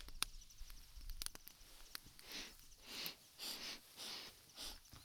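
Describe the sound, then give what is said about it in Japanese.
Quiet, close sniffing by someone breathing in a scent, a series of several short, breathy inhalations in an uneven rhythm, preceded by a couple of faint clicks. “嗅いでもいいですか？失礼しますね。”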